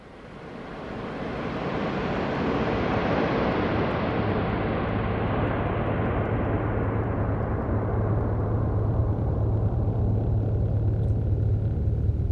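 Steady engine rumble of a car driving and turning left up a hill, a broad, even roar that swells over the first two seconds and then holds constant, with a low hum running underneath.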